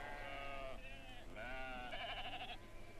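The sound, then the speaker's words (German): Sheep bleating in a pen at night, several wavering, nasal bleats overlapping back to back for the whole stretch, fairly faint over a steady low hum. “sind die Schafe schon drin.”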